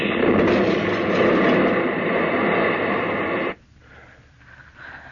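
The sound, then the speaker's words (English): Meteor crashing into a field: a loud, dense roaring rumble holds for about three and a half seconds, then cuts off abruptly into near silence with only faint tones. “A meteor. Must have landed out in the field there.”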